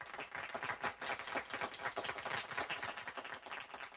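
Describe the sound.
Applause from the audience of a quiz show, dense, even clapping that continues steadily for the whole clip at a fairly quiet level.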